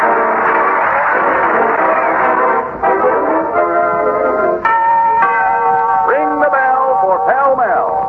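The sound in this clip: Bell chimes ring out in a cigarette advertisement, several sustained, resonant tones layered over a steady harmonic backdrop, loud and continuous throughout.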